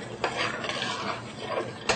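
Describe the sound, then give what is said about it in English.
Polenta being stirred in a pot as it thickens: a continuous rough scraping and rasping texture with a couple of sharper knocks, and no voices. “We'll stir the polenta again.”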